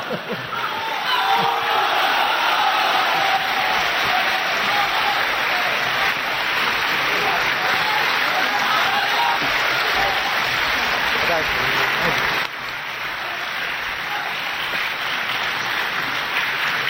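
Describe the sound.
Audience applause at a live stage performance of traditional comic material: a dense, steady patter of many hands that fills the whole stretch, easing slightly in level toward the end.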